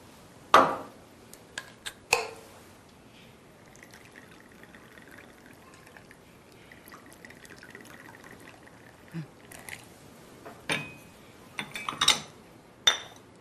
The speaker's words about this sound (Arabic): بدي صب لك كوبايه شاي ماشي؟